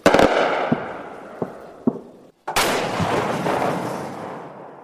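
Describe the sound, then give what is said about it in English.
Ukrainian artillery firing at Russian positions near Kupiansk: two heavy, loud booms, each trailing a long rumbling decay, with a few lighter thuds between them. “this time in Kupiansk. Ukrainian artillery firing at nearby Russian positions.”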